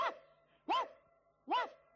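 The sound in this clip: A dog barks three times, evenly spaced, each bark short with an arched tone, fairly faint and alone.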